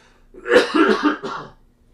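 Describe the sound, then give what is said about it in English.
A person coughs a few times in quick succession, short rough throaty bursts that are fairly loud and heard alone. “for a second there, I had a cough”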